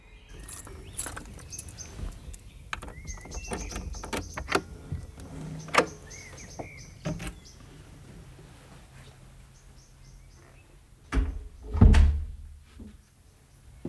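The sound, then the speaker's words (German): A garden gate and front door are unlocked and closed, with many small metallic key and latch clicks, rattles and scrapes. Near the end comes a heavier thud as a door shuts. No talk. “Mit dem Aufschließen der Haustür war die Raumsicherung abgeschaltet. Ich machte die Haustür wieder zu”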